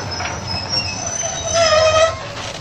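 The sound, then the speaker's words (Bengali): Loud train from Kolkata pulling into a station at Cuttack, its wheels squealing in high, thin tones over a steady low rumble of rolling railcars, with no voices. “Kolkata থেকে train যথাসময়ে এসে পৌঁছল কটকে”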